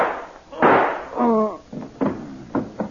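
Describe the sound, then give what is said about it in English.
A gunshot in a radio drama bursts out as a single sharp crack, quickly followed by a voiced cry and further bumps and voices. “So you still have my gun. Yes, and I'm going to use it on Homer now.”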